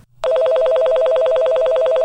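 Telephone ringing for an incoming call: after a brief quiet start, a loud electronic trill begins abruptly and warbles rapidly and evenly between two close pitches, continuing without a break to the end.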